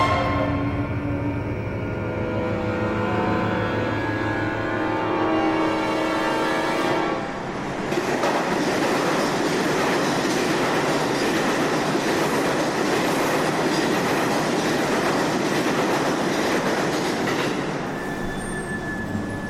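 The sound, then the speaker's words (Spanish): A subway train runs in a video game, on a metro line near Plaza Apolo in a 1959 setting. A steady, loud rumble carries squealing wheels, with a tonal hum for the first seven seconds that gives way to a denser, clattering roar. “Metro cerca de la Plaza Apolo. 1959.”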